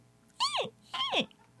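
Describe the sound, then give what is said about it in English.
A voice imitates a squeaky sneeze with two short, high-pitched vocal squeaks, each arching up and then sliding down in pitch. The squeaks are fairly faint and separated by a brief pause. “some people sneeze like that”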